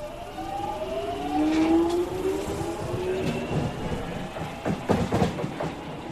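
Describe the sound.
A London train arriving at West Hampstead station: a low rumble with drawn-out whining motor tones, followed by a few clattering knocks as it slows.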